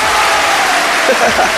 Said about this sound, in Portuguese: vamos aplaudir aí, ó.